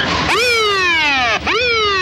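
Tires skid as a car swerves hard on a city street: two loud, shrill screeches, each starting abruptly and then sliding downward in pitch. The second one starts after a brief dip.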